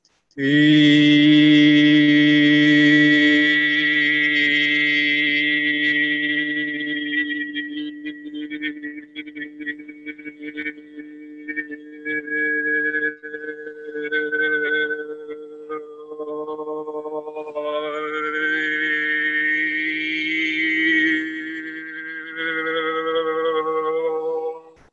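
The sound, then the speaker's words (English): Sustained vocal toning on a steady 'oo' vowel, sung from the throat, holds a low, even pitch for the whole stretch, with high overtones emerging clearly partway through before the tone continues, alone and unbroken. “inviting us just to go with the center and the voice, the throat center, and use the, it's a U sound. So it sounds like this.”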